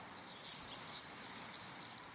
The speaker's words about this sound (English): this is the call of a bird that arrives in Britain every spring. It's the swift